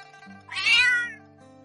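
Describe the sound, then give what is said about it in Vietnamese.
A brown cat meowing: one clear, drawn-out meow lasting under a second, over a faint steady background hum. “Hai người đang nói chuyện thì chợt nghe thấy có tiếng mèo kêu.”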